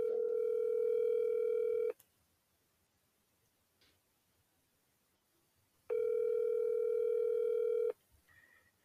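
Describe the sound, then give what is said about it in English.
Telephone ringback tone from a call ringing unanswered before voicemail: two long, steady, buzzy tones of about two seconds each, separated by a few seconds of near silence. “Just call her, see if she answers. Oh my God, all right. She doesn't answer. I'm leaving a voicemail.”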